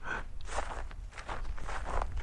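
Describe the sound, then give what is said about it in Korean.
Footsteps sound as a steady series of soft, scuffing steps at a walking pace, quiet and continuous with no voices. “가만. 발걸음 소리요.”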